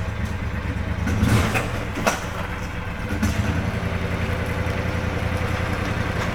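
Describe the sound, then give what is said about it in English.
A utility vehicle's engine runs steadily with a low, even rumble throughout, and its level barely changes from start to end. “what they call a Gator, I guess, or some other kind of utility vehicle. And there are varying degrees of expertise when it comes to driving these vehicles. You gotta put it in gear.”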